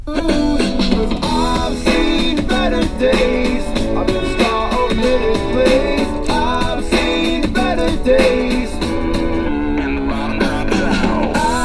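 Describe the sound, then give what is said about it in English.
Music plays through a SoundPods Bluetooth speaker in regular Bluetooth mode, fed from a computer. The song runs continuously and loud with a dense, full mix, and no talking is heard. “that is the sound of the SoundPods Bluetooth speaker. I was playing some music off my computer coming through Winamp.”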